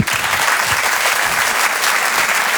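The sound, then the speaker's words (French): Audience applause at a comedy club: dense, steady clapping from a crowd, loud and unbroken from start to finish. “Bravo, on peut l'applaudir très très fort, s'il vous plaît”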